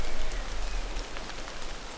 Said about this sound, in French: pluie